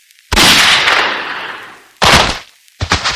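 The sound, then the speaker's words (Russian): A pistol gunshot cracks out loud and sharp, then its broad noise rings and slowly fades over more than a second. Two shorter, loud bursts follow, with brief quiet gaps between them. “Рывок, пистолет, выстрел.”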